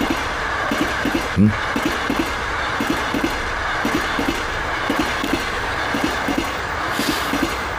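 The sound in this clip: A train runs along the rails with a steady rolling rumble and a regular clickety-clack of paired wheel clicks repeating throughout. One heavier thump stands out early on.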